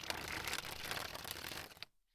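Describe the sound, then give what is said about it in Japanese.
Playing cards are sprung from the hand one by one in the spring technique. A dense, papery flutter runs continuously for about two seconds, then stops abruptly into silence. “あ、このカードを1枚ずつ飛ばすテクニック、スプリングって言います。”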